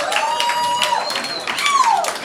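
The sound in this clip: Audience applause for a band at an alternative song festival: a short, dense burst of clapping from many hands, with a voice heard over it.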